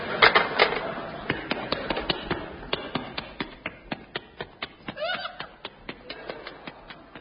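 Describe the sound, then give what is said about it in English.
Running boots from an old, scratchy BBC sound-effects record: a long, even run of many sharp, crisp footfalls at a quick, regular pace, with faint surface noise beneath. “Those running boots are a repeat of the running boots you heard in Those Were the Days on the light program on March the 2nd. And was taken from the BBC Great Sound Library of 9,000 scratchy records.”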